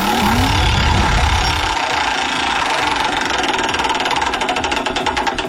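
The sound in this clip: A game-show prize wheel spins with a loud, dense rattle that settles into many rapid, regular ticks over a constant mechanical whir.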